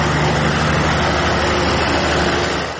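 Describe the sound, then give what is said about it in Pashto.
Diesel engines running to power a small ice factory near a power plant, producing a loud, steady, low rumbling drone that holds unchanged throughout with no voices. “د ګریش د برق له فابریکې په 200 متره کې د یخي یوه وړه کارخانه د ډیزلي ماشینونو په برېښنا چلیږي.”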